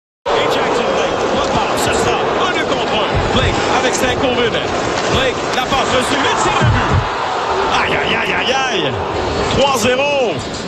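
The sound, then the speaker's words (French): An ice hockey arena crowd roars after the third goal of a quick scoring burst. The loud, steady cheering and shouting carries on for about ten seconds. “Là, ce que vous venez d'entendre, c'était le troisième but.”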